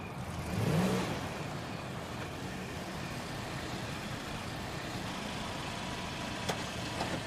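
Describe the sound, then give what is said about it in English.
A car engine rumbles low and steady as the car pulls into a house driveway at night, swelling briefly near the start, then holding an even drone with a couple of faint clicks toward the end. “Matt's car pulls into the driveway of Anna's house under the cover of darkness.”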